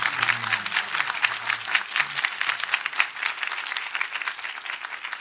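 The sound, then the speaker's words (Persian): An audience claps at a religious gathering honouring Umm al-Banin, a steady, fairly rhythmic crowd applause that runs without pause from start to end. “اگه دست میزنید همه دست بزنن.”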